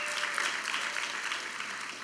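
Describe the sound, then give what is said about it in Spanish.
Applause from a church audience welcoming first-time visitors during a bilingual English and Spanish service. Steady, moderately quiet clapping from many hands continues evenly for about two seconds without other sounds. “Raise your hands. Welcome. Su mano, bienvenidos. Give him a hand. Bienvenidos.”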